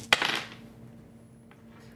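Dice rolled during a tabletop game: one sharp clattering rattle that quickly dies away, followed about a second later by a single faint click, with no voices.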